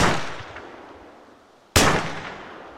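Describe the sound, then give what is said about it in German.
Gunshots fired at a beech tree: two sharp, loud bangs, one at the very start and another after a pause, each trailing off in a long fading tail. “Ich ziele auf eine Buche, die fünf Meter entfernt steht, und drücke ab.”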